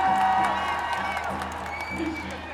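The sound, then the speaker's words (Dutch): Crowd cheering and clapping at a feminist march rally on Dam square in Amsterdam on International Women's Day, a mix of scattered claps and raised voices with some sustained tonal calls, fading slightly toward the end. “Dus applaus voor jullie zelf.”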